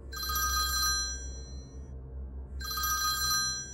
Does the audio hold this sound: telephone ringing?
yes